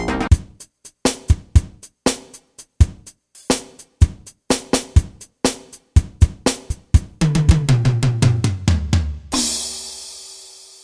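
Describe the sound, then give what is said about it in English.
Clumsy drumming: loud, unevenly spaced hits stumble along for several seconds, then a quickening run of tom strikes falls in pitch and ends on a long, ringing cymbal crash. “I never told you to give up drumming, even though your playing sounds like this.”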